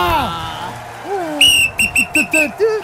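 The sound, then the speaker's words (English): A whistle held in the mouth is blown in a run of six short, shrill toots after a longer opening blast, with gliding voice sounds beneath and before them. “I reckon it's a whistle.”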